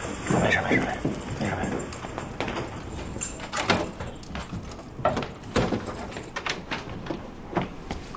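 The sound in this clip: Keys jangle and click at a door lock as it is unlocked, many small metallic clinks and rattles with voices talking around them.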